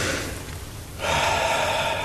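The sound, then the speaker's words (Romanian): A deep breath taken during a medical examination: a steady, airy rush of breathing that grows noticeably louder and fuller about halfway through and continues to the end. “Ia, respira adânc.”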